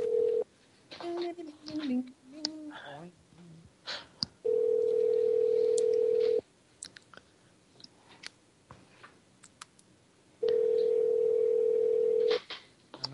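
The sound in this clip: Telephone ring-back tone on a call to a Chinese restaurant: two long, steady, mid-pitched tones separated by a pause, with muffled talk and scattered clicks beforehand.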